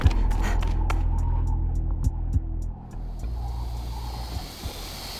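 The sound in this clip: A solar-powered vehicle speeding over desert sand dunes: a steady low motor hum and rumble with scattered clicks and knocks, dipping briefly around the middle before carrying on.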